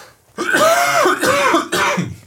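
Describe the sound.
Throat clearing and coughing come in three rough, rasping bursts, the first two drawn out and the last shorter, loud and with no other sound around them.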